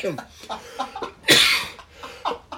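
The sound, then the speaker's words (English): A single sharp, harsh cough bursts out in the middle of a short stretch of voiced sound, loud and brief against the quieter murmurs around it. “I know I'm coughing”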